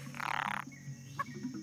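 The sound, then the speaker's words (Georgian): A poison frog in the Amazon jungle gives a single rapid, buzzing trill of closely spaced pulses lasting about half a second, followed by a few faint, brief calls against a quiet background. “ამაზონის ჯუნგლები უზარმაზარი ცოცხალი ორგანიზმია ყველა ბუჩქის ძირში შხამიანი ბაყაყია”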